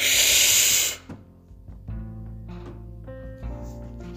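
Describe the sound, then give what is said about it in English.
A deep breath drawn in during a guided breathing exercise: a loud, airy hiss lasting about a second, then dropping away to quiet, low sustained tones. “Big deep breath in.”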